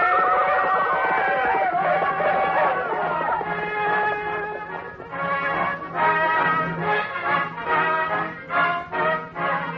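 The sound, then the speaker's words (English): Horses whinny loudly and repeatedly over a dense, steady rumble, and through the second half their calls pulse in a rhythmic pattern that suggests galloping. “Yes, here they come. They're riding fast, they're riding hard.”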